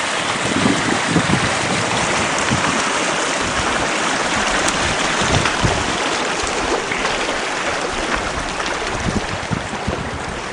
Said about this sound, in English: they just laid around and ate and rested and listened to the creek, as you can see.